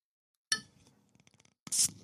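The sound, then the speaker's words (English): A beer bottle cap ripped off by hand: a sharp metallic crack, a run of light glassy clinks and scrapes, then a short loud hissing burst at the end. “So yeah, let's crack open another beer for this donation.”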